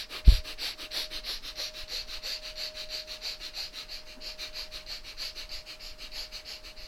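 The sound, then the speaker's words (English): Rapid, forceful nasal breathing in a breath of fire yoga exercise: many quick, even puffs of air through the nose in a steady rhythm, fairly faint, after a brief thump at the start and over a thin constant hum. “Breath of fire again.”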